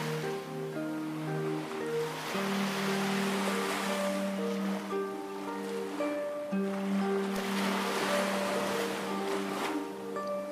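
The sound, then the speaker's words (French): Ocean waves wash and swell steadily beneath sustained, calm musical tones, with a soft continuous hiss that rises and eases without clear breaks. “Tu ressens à l'intérieur de toi ces sons, cette musique de l'océan.”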